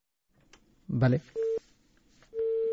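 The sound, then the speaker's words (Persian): A telephone busy tone sounds after a call line drops: a brief voice, then two steady mid-pitched beeps separated by a pause. “سید اکبر آقا تلفنش فکر میکنم تلفن قطع شده”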